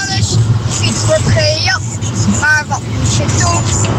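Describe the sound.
Steady low road rumble inside a moving car, with a child's singing voice carried over it as on a phone line; the engine drone stays constant beneath the voice throughout.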